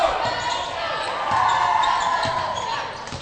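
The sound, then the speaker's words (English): Basketball dribbled on the court during the opening quarter of a game, a few faint bounces under a steady wash of crowd noise. “Dribble out in the midcourt area.”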